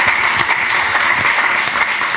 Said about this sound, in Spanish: Joaquín, bueno, un aplauso.